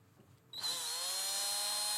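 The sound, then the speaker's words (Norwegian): A power drill bores into a chocolate bar, starting abruptly after a short quiet moment and then holding a loud, steady, high-pitched whine. “Det funker overraskende godt, vil jeg si, å drille i sjokolade.”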